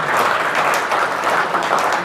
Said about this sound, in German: Und ja, Applaus.